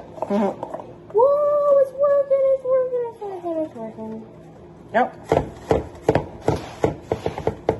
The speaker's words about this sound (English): See how it sifts in and it gets all nice and fine?